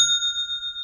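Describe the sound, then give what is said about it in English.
A bright electronic ding rings once: an online store's new-sale notification chime. It holds as a clear, steady high tone with a slight shimmering pulse before it ends. “I love that. That is the sound of another sale on Shopify”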